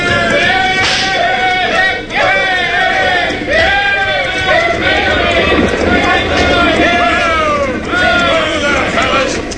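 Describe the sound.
Gang of riders galloping on horses into town: hoofbeats under a mass of whooping, yelling voices, loud and continuous throughout.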